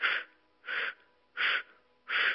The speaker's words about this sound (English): And now begin inhaling in 4 powerful strokes through the O mouth, like this.